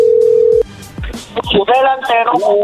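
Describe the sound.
A telephone number is dialed: a steady dial tone holds for about half a second and then cuts off, followed by a few low clicks and knocks, with voices over the latter part.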